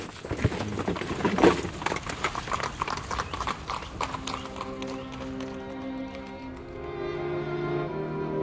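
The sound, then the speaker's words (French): Horse hooves clip-clop steadily as a horse pulls a carriage with a folding hood, driven by a coachman. The quick, fairly loud beats run throughout, and sustained tones join in the second half. “Il aide le cocher à déplier la capote, monte à côté de lui et prend les rênes. Je vais conduire.”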